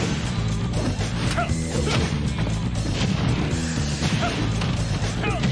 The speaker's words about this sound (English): For today, though, we've prepared a short video to showcase Kazuya's moves in Super Smash Bros. Ultimate. Please take a look.